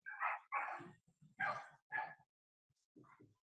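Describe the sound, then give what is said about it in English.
A dog barks in the background of a call: four sharp, loud barks in quick succession, then after a short gap a couple of fainter, softer yips. No one talks over them. “I'm hearing a dog barking in the background.”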